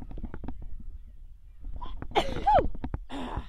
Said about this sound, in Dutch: Ik moet niezen.